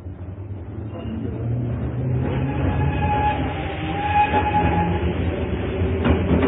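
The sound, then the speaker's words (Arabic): A morning passenger train bound for Cairo rumbles along in a steady, heavy drone that grows slightly louder, with rattling wagons and faint high squealing tones over the rolling clatter. “انا ماشي بقى عشان الحق قطر الضحى اللي نازل على مصر”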